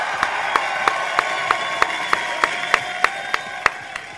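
Sparse studio-audience clapping, about a dozen sharp, evenly spaced claps in a steady rhythm over a continuous tonal background, rather than a full ovation.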